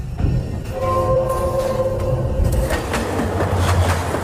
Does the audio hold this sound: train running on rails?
yes